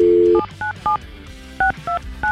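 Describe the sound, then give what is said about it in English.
A telephone number being dialed on touch tones: a steady dial tone gives way to a series of short, evenly spaced beeps in two groups separated by a brief pause, with no talking. “We've dialed the number”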